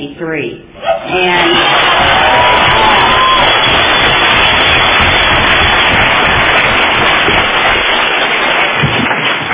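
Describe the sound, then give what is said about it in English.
A crowd at a Narcotics Anonymous world convention claps and cheers, a loud, sustained roar of hands and voices that swells after a brief quieter opening and then holds steady throughout. “And thank you, and I also hope you are clapping for yourselves because, it's with y'all, and it's because of Narcotics Anonymous.”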